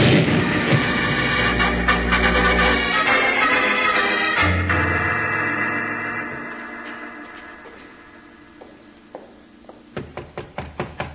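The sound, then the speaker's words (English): A powder keg explodes in a tunnel as a radio drama effect: a loud, deep rumbling blast that slowly dies away, then a rapid series of sharp knocks. “Jingles, that's a powder keg and the fuse is burning. Bill, it's getting short. Down, Jingles, it's going to explode.”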